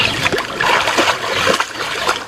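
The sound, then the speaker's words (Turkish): Splashing and sloshing water as herds of water buffalo cool off in an artificial pond in Silvan, Diyarbakır, during scorching heat, with continuous irregular splashes and trickles. “Güneydoğu'da kavurucu sıcaklardan bunalan mandalar göletlere sığındı.”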